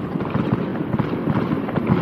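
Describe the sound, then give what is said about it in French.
Fireworks explode in the sky as a dense, continuous crackling rumble of many overlapping bursts, fairly loud, with no voices. “C'est alors que l'étoile explose en un feu d'artifice. Elle éclate dans le ciel en mille éclats”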